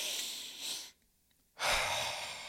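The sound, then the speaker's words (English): Double nasal inhale for easing anxiety: a loud, breathy rush of air through the nose with a second short pull stacked on top, then a brief silence and another long, loud breath. “Big breath through the nose, and then you try to have another one on top of that. So it looks like this”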